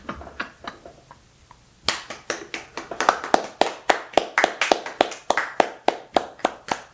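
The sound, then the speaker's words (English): Clapping starts with a few faint, scattered taps, then becomes a run of sharp, evenly spaced claps that keep a brisk, steady rhythm. “He deserves a round of applause.”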